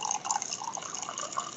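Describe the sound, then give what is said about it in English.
Coffee being poured, a steady liquid trickle with drip-like splashes that keeps a fairly even loudness throughout, with no talking. “My girlfriend's just pouring some more coffee”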